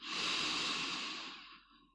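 A person breathes slowly during a medical procedure while pressure is applied, giving one long, soft, breathy exhale that starts fairly loud and fades gradually over about two seconds.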